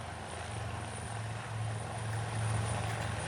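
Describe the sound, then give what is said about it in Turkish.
A helicopter's rotor drones steadily during a search-and-rescue drill, lowering a rescue team to the injured, a faint, continuous low hum that swells slightly toward the end. “Ekranın hemen sol köşesinde bakın yukarıda helikopteri görüyorsunuz.”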